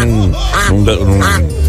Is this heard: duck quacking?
yes